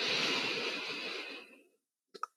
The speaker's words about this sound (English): And one more time, inhaling